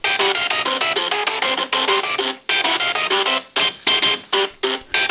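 Two programmed card readers play the Super Mario theme in buzzy, mechanical, printer-like notes. The notes follow a quick, steady rhythm and break into short separated bursts near the end.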